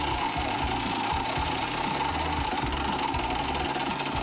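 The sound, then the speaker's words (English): A prize wheel spins with rapid, evenly spaced mechanical clicks in one continuous ratchet-like stream, fairly quiet and steady throughout with no voices. “Spin the wheel. Spin the wheel.”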